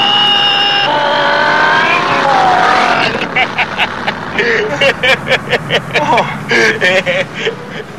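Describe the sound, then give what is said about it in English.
A car accelerates hard through first and second gear. The engine revs up in a rising whine, then turns into a loud, choppy, pulsing roar. “Hey, first gear! Here we go! Hey, second gear! Here we go!”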